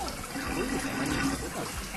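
A toilet is flushed again because its contents will not go down, giving a steady rush of water that stays even and continuous throughout.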